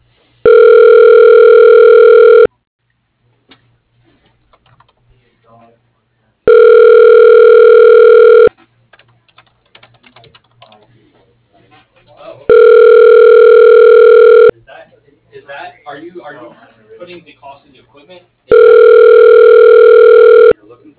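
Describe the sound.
Ringback tone of a telephone call connecting to a voicemail line: four loud, steady, pitched tones of about two seconds each, separated by quieter gaps that hold faint scattered sounds.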